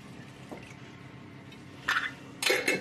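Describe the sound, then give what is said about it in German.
Utensils stir a feta salad in a bowl, giving soft scraping with a light knock early on. Later come a few bright, ringing clinks of metal against the dish, with the loudest near the end. “Und dann müssen wir das nochmal umrühren.”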